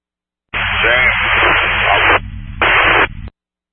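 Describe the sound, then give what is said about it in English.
Radio transmissions smothered in harsh static: loud, even hiss fills two bursts, a long one and then a shorter one after a brief gap, with no voice getting through. “All these transmissions are just static. I can't understand anything anybody's saying.”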